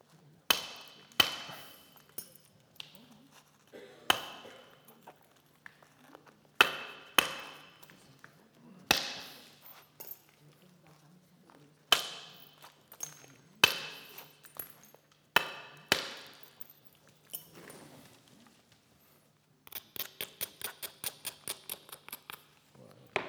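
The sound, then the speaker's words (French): Sharp cracks of stone knapping, with preparatory strikes to control the flakes: many crisp, irregular blows separated by pauses, then a quick run of rapid, lighter taps near the end. “Donc toujours là, du travail de préparation pour mieux contrôler les éclats.”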